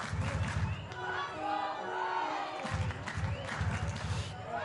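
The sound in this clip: A baseball crowd chants "Let's Go Quakes" late in a tight game, with the visiting Storm one out from victory. Rhythmic crowd voices swell and repeat in loud bursts over steady stadium noise.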